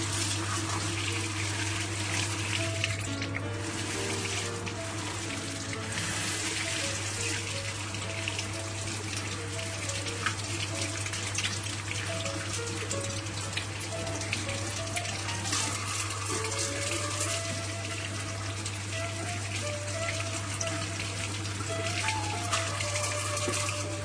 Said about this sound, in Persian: من الان دارم با دقت میشورم قاشمو که چیزی روش نمونه.